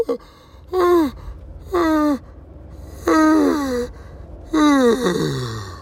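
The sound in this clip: A voice imitates a big yawn with four drawn-out groaning breaths. Each one starts high and slides down in pitch, separated by short pauses.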